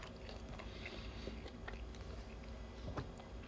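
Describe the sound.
Someone chews and bites into a tasty snack. Soft, crunchy munching sounds repeat steadily, quiet and continuous, with no talking.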